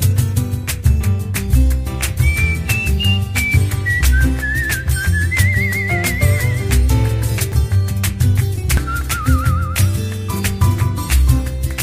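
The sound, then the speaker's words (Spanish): A whistled melody with light vibrato drifts in high, sustained notes over a full instrumental music backing that plays steadily throughout. “Silbar mi melodía.”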